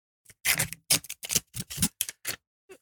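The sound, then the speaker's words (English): Paper crackles and tears as a golden envelope is opened: many crisp, dry bursts of rustling in an uneven rhythm, with brief pauses between them. “I'm just going to give you three names in the nominations, which I hope are in the golden envelope. Give me a second while I open it.”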